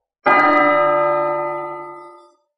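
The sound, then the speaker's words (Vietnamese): A large golden bell hanging in a heavenly palace is struck once, a deep, full tone that rings out loudly and then fades slowly over about two seconds, with no other sounds. “Trong một tòa thiên khuyết treo một cái chuông lớn màu vàng, tiếng chuông rung động khắp thập phương”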